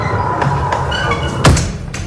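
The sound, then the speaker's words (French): A heavy, massive castle door is pushed open, giving a single dull thud partway through over a steady rushing background. “Ça, c'est de la porte. Hein. Une des portes, plus légère que celle qu'on va voir maintenant.”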